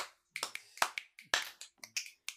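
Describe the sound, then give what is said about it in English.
Sparse, scattered claps or snaps from a small audience appreciating a joke, with many separate sharp hits in an uneven rhythm and short silent gaps between them. “So you guys are applauding the joke.”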